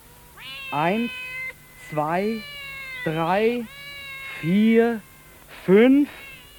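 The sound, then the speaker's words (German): A gathering of cats meows in a series of drawn-out, wavering cries, about five distinct meows spaced a second or so apart. They vary in pitch and length, and no other sounds compete with them. “Eine Katzenversammlung. Eine richtige Versammlung.”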